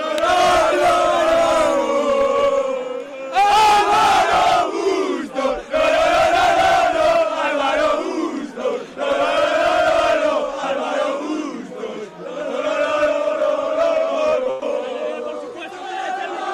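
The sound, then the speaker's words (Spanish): Fans cheer and chant in a loud, continuous crowd roar, celebrating a sporting result. The rhythmic chanting rises and falls without a break for the whole stretch. “¡Enhorabuena! Escucháis a la afición aquí.”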